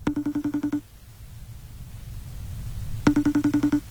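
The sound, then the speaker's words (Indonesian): Phone ringing in two bursts of rapid, bright trilling pulses, separated by about two seconds of near quiet. “Siapa lagi telepon-telepon?”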